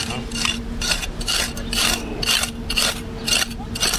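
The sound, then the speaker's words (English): Archaeology dig tools scraping against rocks and hard objects at an excavation beside a historic house: many rhythmic, gritty, hissing scrapes repeat in short bursts at a steady pace over a low hum. “That's the sound of scraping against rocks or other hard objects.”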